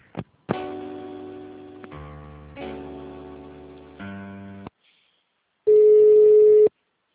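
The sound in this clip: Telephone line tones while a call is being transferred: a few buzzy, harmonic tone segments at shifting pitches, then a short gap and one steady, pure beep lasting about a second.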